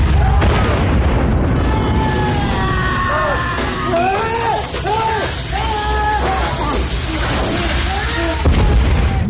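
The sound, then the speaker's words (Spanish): An explosion aboard a submarine in a film rolls out as a loud, sustained, rumbling roar. Men's shouting voices rise over the din in the middle and trail off as the noise persists. “Se produce otra explosión.”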